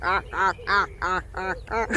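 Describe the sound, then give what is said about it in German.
A drake quacking near Wandlitz: a steady run of nasal quacks at an even pace, each about a third of a second apart, moderately loud and alone. “Aber es war wirklich eine Ente, ein Erpel, um genau zu sein.”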